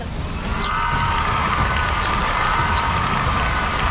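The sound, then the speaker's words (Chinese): Crowd cheering and applause for the Guochao team during the scoring round of an education-themed show, a dense, steady roar with a sustained tone running through the middle. “首先是我们的国潮队，来听到你们的欢呼声，”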